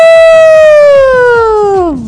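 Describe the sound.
A siren-like ambulance wail, a loud steady tone that slowly falls in pitch over about two seconds and drops more sharply at the end, with faint rhythmic thumps underneath.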